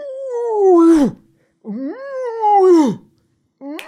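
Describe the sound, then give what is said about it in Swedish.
Moose contact calls: long, nasal, moaning tones that swell and then slide down in pitch. Two full calls are followed by the start of a third, with short silences between them. “Kontaktlätet för älg låter ungefär så här. Kör den nu.”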